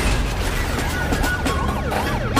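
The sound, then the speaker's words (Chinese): A police siren wails, its pitch sweeping up and down in repeated cycles over a dense, rumbling background noise. “警笛响起，警灯亮起。”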